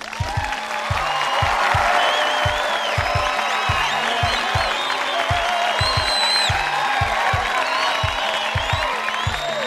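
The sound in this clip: Audience applause and cheering with scattered whoops greet a contestant on a horror trivia game show, a dense, loud, steady wash of clapping lasting throughout over a pulsing low beat.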